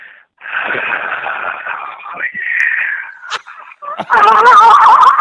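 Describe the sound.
Loud, raspy breathing by a radio contest caller over a phone line: a long noisy exhale, then shorter breaths, ending in a strained, voiced rasp.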